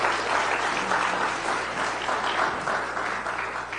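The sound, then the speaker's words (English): Audience applause for a praise and worship team: a continuous wash of many hands clapping, steady and fairly loud, easing off a little at the end. “Let's give it up for that. Let's give it up for the praise and worship team. That is awesome.”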